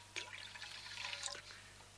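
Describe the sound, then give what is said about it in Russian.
Water poured while a food offering is prepared, heard as a faint, brief splashing trickle with a few drip-like plinks lasting about a second, with no talk. “Сейчас я воду налью сейчас.”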